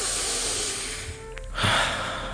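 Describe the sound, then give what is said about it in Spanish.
A deep breath is drawn in during a guided breathing exercise: a long, airy hiss of inhalation over steady background noise, growing stronger in its later part. “primero vamos a tomar tres respiraciones profundas, inspirando,”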